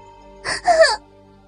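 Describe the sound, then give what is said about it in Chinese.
A woman's sudden startled cry, a short voiced outburst in two quick parts with clear tonal quality, heard alone against a quiet background. “正要起身，忽然惊叫一声”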